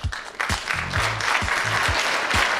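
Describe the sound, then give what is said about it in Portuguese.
Applause sound effect: dense, steady clapping that fills the whole stretch at an even, fairly loud level, with recurring low thuds beneath it. “Era palmas, foi mal.”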